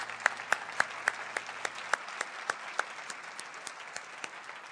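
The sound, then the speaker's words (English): Church audience applauding: many crisp, evenly spaced claps in a steady rhythm, with no voices. “Let's give the Lord a hand this morning.”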